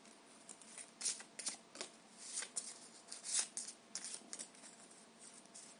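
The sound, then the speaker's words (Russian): Cards are shuffled and laid out for a card reading, giving many soft, quick rustles and flicks at a faint level. The bursts come in irregular clusters with brief pauses between them, and no voice is heard. “Так, сейчас я эти карты вниз немножко так пущу и возьму карту Кипр”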